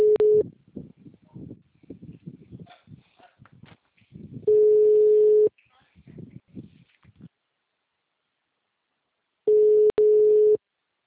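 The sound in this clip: A telephone busy tone sounds after a dropped call: three steady, mid-pitched beeps, each about a second long and spaced a few seconds apart, with people talking in the gaps between them.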